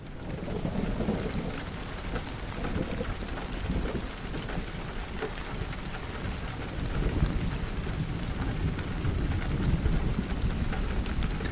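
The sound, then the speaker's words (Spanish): Steady heavy rain patters against a window while thunder rumbles low underneath, a dense continuous wash of sound that swells a little louder in the second half. “este es otro vídeo de 10 horas, 10 horas, 15 minutos, 26 segundos, y se llama Lluvia en la ventana con sonidos de truenos.”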